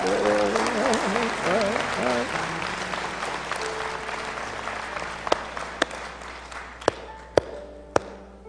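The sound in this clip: Applause from a gathered audience welcoming newcomers: steady, dense clapping with a voice briefly audible at the start, gradually thinning out, with a few sharp, isolated claps toward the end.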